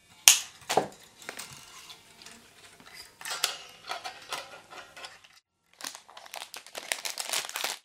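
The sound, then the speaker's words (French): Wire cutters snip slackened steel strings at a guitar's headstock: a few sharp metallic clips, then many light clicks and rattles as loose string ends shift, with quieter gaps between bursts. “Voilà, donc une fois que mes cordes sont détendues, je vais les couper.”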